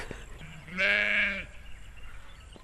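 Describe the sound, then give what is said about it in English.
A Suffolk ewe or lamb from a flock with young lambs gives a single loud, drawn-out bleat of steady pitch. Before and after it there is only a quiet, low background. “So we've got 85 Suffolk ewes, which lambed in August. So they're the lambs obviously still with their mums, and they're just running around everywhere.”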